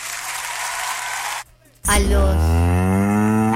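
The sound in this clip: A cow moo sound effect: one long, low, steady bellow of nearly two seconds, following a short burst of applause and a brief pause.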